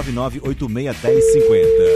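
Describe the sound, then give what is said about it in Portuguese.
A telephone ringing tone from an outgoing call comes in after about a second of talk: a single steady pitch that holds loud and unbroken until the end. “Seu telefone vai tocar agora, já chamando.”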